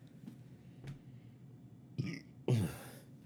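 A loud, low, raspy burp follows drinking beer. It bursts out near the end after a shorter rough sound, over a quiet background hum.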